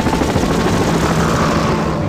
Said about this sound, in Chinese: 直升机救援，投送一名救援队员